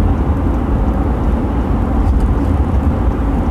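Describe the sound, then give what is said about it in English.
A car cruising on a highway at 75 mph under cruise control gives a loud, steady, low road and engine rumble that holds evenly throughout, with no talk. “Yes, I'm driving, and I just boosted my cruise control up to 75, because the speed limit is now 75.”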